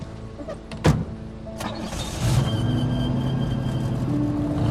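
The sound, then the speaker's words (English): A car starts and drives off down a dirt road. A sharp knock comes near the start, followed by a steady, moderately loud engine hum that continues to the end. “He drives off in the opposite direction.”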